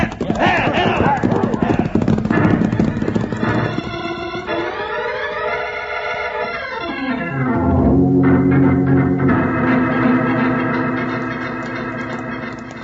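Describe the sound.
Horses of an outlaw gang gallop off in an old Western radio drama featuring Wild Bill Hickok. Steady hoofbeats run under loud sustained musical tones that slide downward in pitch midway, then settle into a held chord.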